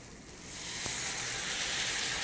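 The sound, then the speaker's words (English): Marinade sizzling as it meets onions softening in a hot pan, a soft hiss that swells after a sharp splash into a steady, loud sizzle, with no voices. “Once your onions start to turn a little bit translucent, that's when you know it's ready. We're gonna put in our delicious marinade.”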